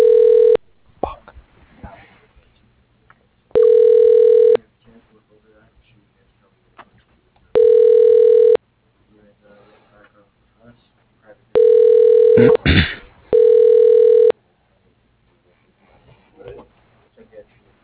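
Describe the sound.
Ringback tone of a telephone call being transferred to voicemail: loud, steady mid-pitched tone bursts recur about every few seconds, five in all, with faint background noise between them and a sharp click near the end.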